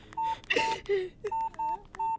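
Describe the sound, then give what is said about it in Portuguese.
Telephone keypad tones sound as a number is dialed. A quick, evenly paced run of short beeps is partly overlapped early on by a burst of noise. “Já vou ligar para o pai.”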